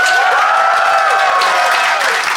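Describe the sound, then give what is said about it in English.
A studio audience applauds to cast a vote in a comedy mock-court segment: a dense, even wash of clapping at steady loudness throughout, with some voices shouting within it. “If you think the baby is in the right, I would like you to applaud for Pierre and Ben now.”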